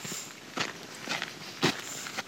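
Footsteps walking through a garden: a handful of soft, crunchy steps at an unhurried, even pace, each a brief scuff over quiet background.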